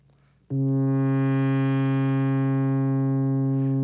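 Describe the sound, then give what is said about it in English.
A single sustained synthesizer note has its filter opened and closed by an envelope generator. The buzzy tone starts abruptly, grows brighter as the filter opens, then turns duller again while its loudness stays steady. “Now, that opening and closing of the filter was done not by me, but by the envelope generator.”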